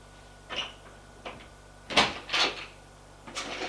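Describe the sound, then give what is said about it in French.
A cupboard door is opened in a bedroom, giving a few soft, brief knocks and creaks spaced across a few seconds, faint over a steady low hum. “Lui, une fois entré dans sa chambre, il va ouvrir son placard,”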